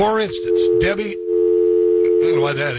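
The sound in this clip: A cell phone gives off a steady, unbroken electronic tone that runs on beneath someone talking.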